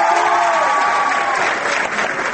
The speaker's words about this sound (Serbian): Aplauz kojim su baš lepo srednjoškolci iz Beograda, Leskovca, Niša, Lebana i Rače dočekali predstavnika Evropske unije u Beogradu Vensana Dežera